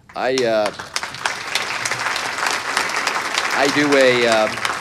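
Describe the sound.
Audience applause during a talk about religion and bigotry: dense, steady clapping that lasts about four seconds. A man's voice is heard briefly at the start and again at the end.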